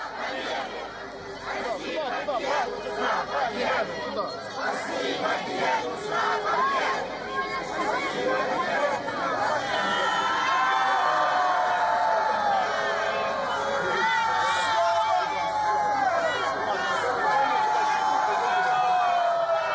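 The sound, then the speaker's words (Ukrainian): Crowd atmosphere near the Glory Memorial in Kharkiv: a steady babble of many overlapping voices chattering and calling out, holding at an even, fairly loud level throughout. “И у нас даже есть небольшой звук оттуда, из Харькова, из-под этого мемориала. Вот послушайте, какая там атмосфера была всего лишь час назад.”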